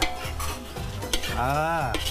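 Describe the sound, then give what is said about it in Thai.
Lemongrass being stir-fried in a pan: a steady sizzle with scraping and stirring of a utensil against the pan, and a squeaky tonal scrape near the end. “เออเอาตะไคร้ลงได ้เอาลง เอาลงไปผัดลงไป”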